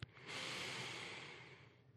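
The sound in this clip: A slow, deep inhalation, a soft airy hiss lasting about two seconds that gradually fades toward the end. Quiet and alone, with no talking.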